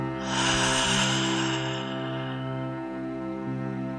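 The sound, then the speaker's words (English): A deep breath during a guided gratitude meditation, drawn in through the nose and released through the mouth, heard as one long airy rush that fades over a steady, sustained musical drone. “Take a last round of breath here, in through your nose, out through your mouth.”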